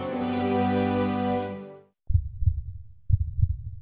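Heartbeat sound effect with two low, thudding double beats in a steady lub-dub rhythm. A sustained harmonic tone comes first, then cuts off just before the beats.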